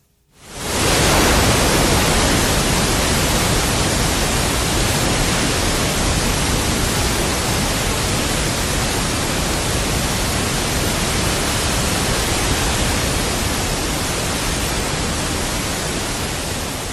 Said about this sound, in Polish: Ten moment, kiedy kończył się program i pojawiał się, no właśnie, taki biały szum.